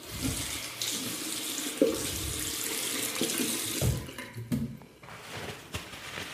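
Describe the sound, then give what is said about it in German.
Running tap water splashes steadily into a sink as hands are washed in an airport restroom, a continuous rushing stream with small bumps and shifts in level and no voices. “Hände waschen.”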